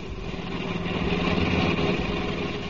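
A car engine hums steadily while driving at night: a continuous droning motor tone at an even, moderate level, with no other sounds.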